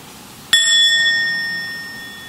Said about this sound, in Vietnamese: Hơi thở vào, hơi thở ra, sau đó mình mới thỉnh một tiếng chuông.